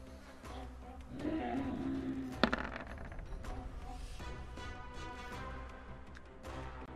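Dice rolled for initiative in a tabletop role-playing game make a sudden sharp clack and a brief rattle partway through, over a steady background murmur.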